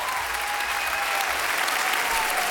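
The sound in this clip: A standing ovation from the audience in Studio 104 at the Maison de la Radio et de la Musique, with loud, dense applause that continues evenly from start to finish.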